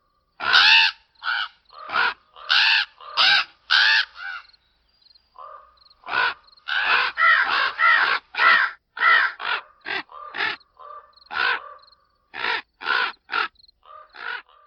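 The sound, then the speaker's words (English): A raven screeching a warning call in woods near Discovery Bay: many harsh, rasping caws in uneven bursts, some in quick runs and some spaced apart, loud and continuous throughout, with no talk. “The mystery sound is a raven, a screeching warning. This call went on for over 20 minutes in the woods near Discovery Bay on June 16th.”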